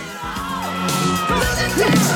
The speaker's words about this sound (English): A private jet lands on a runway as the crowd watching the arm wrestling goes wild.